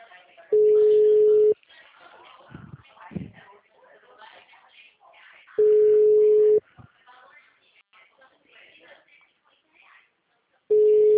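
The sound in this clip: Ringback tone of an outgoing phone call, a steady mid-pitched tone sounding in about one-second bursts every five seconds, two full bursts and a third cut short. Voices and noise fill the gaps between the tones.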